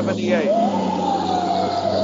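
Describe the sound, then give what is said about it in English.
A Los Angeles Fire Department hook-and-ladder fire engine siren in Studio City, a wailing tone that sweeps upward and then holds a long, steady pitch, with people talking over it. “Hook and Ladder Division. We got one more.”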